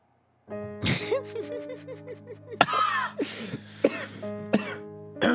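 A man coughs in several short, harsh bursts mixed with throat clearing, spaced unevenly over a few seconds against a low, steady tonal background.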